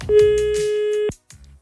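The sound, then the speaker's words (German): A phone call ringing through to a contest winner on a radio line: one long, steady ring tone lasting about a second, cutting off abruptly, followed by brief low noise. “für diese frohe Botschaft habe ich sie direkt mal angerufen.”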